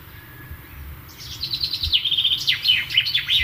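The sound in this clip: A bird chirping over a faint low rumble: after a quiet start, a quick run of many bright, high chirps and swooping whistled notes follows in an uneven rhythm.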